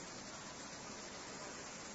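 Rain falls outside as a faint, steady, even hiss, unbroken from start to end.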